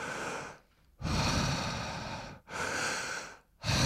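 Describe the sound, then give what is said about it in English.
A climber on a steep high-altitude mountain route takes deep, heavy breaths in a steady rhythm, a few long, loud, rushing inhales and exhales separated by brief pauses, with no talk. “it would be very common for someone to take 2 or 3 deep breaths per step”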